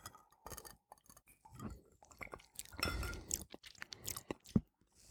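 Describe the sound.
Quiet sipping and wet mouth noises as a pink gin and wine cocktail with lemon is tasted, with irregular small clicks, a longer slurping swell in the middle and faint glass clinks.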